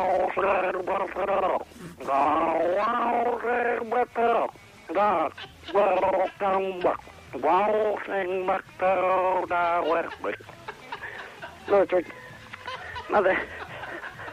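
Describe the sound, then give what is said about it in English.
A person gargles a little kangaroo song, a warbling, bubbling voice carrying a tune in broken phrases with short pauses, growing fainter and more scattered toward the end. “Are you happy to gargle something for us? I certainly am. A little kangaroo song I've got for you all.”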